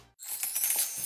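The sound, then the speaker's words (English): Coins drop and rattle in a short burst of bright metallic clinks and jingles that ring on after a brief moment of silence. “That's the sound of your money going further.”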